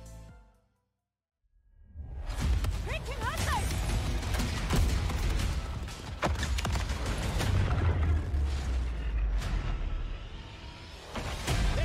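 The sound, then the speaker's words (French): Explosions, gunfire and whooshes from a Battlefield Portal video game trailer erupt after a brief silent gap and continue as a dense, loud barrage of booms and bursts to the end. “Je vous remets la bande-annonce du euh, Battlefield Portal, hein, qui est ce mode d'édition, de bataille qui permet de mettre des véhicules, des armes et des situations issues de différents Battlefields”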